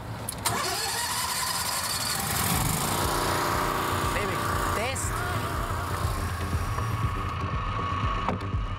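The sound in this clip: A boat engine starts on a river as a fish survey crew heads upstream. A sudden start near the beginning gives way to a steady, loud, mid-pitched mechanical drone that continues to the end.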